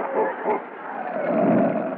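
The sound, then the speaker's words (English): A dog gives a rough, sustained growl rather than separate barks, rising and falling in loudness with a few swells across its length. “That dog has no sense of humor.”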